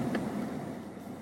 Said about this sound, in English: Oh, there it goes. Activating the wash. Drive in now.